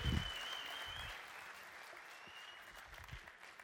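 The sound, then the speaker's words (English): Enthusiastic applause from an audience welcoming a speaker to the stage at a Royal Rangers gathering, a steady clapping wash with a high sustained whistle in the first second, easing slightly as it continues. “Would you please join me in welcoming him with a loud and obnoxious Royal Rangers greeting?”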